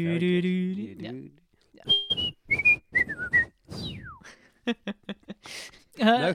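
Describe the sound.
A person whistles a short, wandering tune of clear, high notes, including a long downward glide. Breathy and voiced sounds break up the whistling, and a voice is heard at the start.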